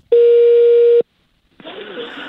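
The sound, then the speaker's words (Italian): A telephone busy tone sounds after a dropped call line, one steady, mid-pitched beep lasting about a second. Silence follows, then talk begins. “Sta suonando una trombetta, cos'è? E niente, deve essere caduta la linea”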